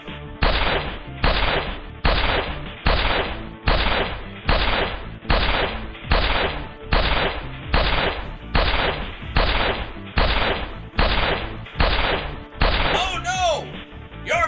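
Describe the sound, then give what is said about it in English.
Gunshots fired at someone ring out in a long, steady series, roughly one loud sharp crack each second, each with a short decaying tail. “That's it! I'm going to shoot you!”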